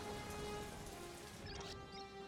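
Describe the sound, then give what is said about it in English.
Rain starting to fall makes a soft, steady hiss of drops pattering on a surface. It stays faint and continuous throughout. “Oh, it's starting to rain now, too.”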